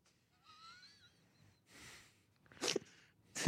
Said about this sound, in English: What a demure sneeze you have for such a large, tall man.